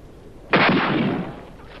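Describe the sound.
A rifle fires a single loud shot with a sharp, sudden crack, followed by a booming rumble that fades over nearly a second.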